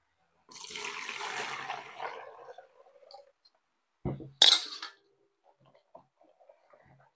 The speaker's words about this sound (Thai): ล้างให้ฟองออกหมดเลยนะคะเดี๋ยวเราไปเปลี่ยนน้ำก่อนนะคะ